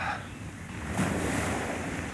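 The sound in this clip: Sea waves breaking on the shore make a continuous broad wash of surf with gusty wind noise, swelling slightly midway and otherwise holding steady, with no voices.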